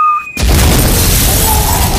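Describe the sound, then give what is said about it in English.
A bomb-drop explosion sound effect: a few brief steady tones give way to one sudden, loud boom that settles into a sustained, heavy roar and rumble, with no voices. “edit in a bomb dropping when I accidentally dropped the F bomb”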